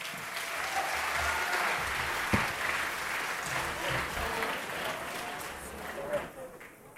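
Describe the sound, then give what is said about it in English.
An audience applauds after a Carlmont High School spring concert in its Performing Arts Center in Belmont, California. The clapping is steady and dense, a voice speaks over it, and it thins out at the very end. “Thank you so much for that kind applause.”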